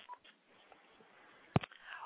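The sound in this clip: Telephone call tones on an incoming phone line: a single sharp, loud tone burst stands out midway, surrounded by faint, thin tonal sounds. No voices are heard.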